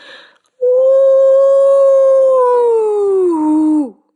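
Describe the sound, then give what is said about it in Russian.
A human voice imitates a wolf howl: one loud, sustained wail that holds a steady pitch for about three seconds, then bends downward and breaks off, heard alone. “Вой больше напоминал вопль, причем предсмертный.”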